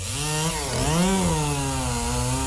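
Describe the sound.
A chainsaw runs loud and continuously during logging in a forest on the mid-north coast of New South Wales, its engine whine rising in pitch near the middle before settling back to a steady rev.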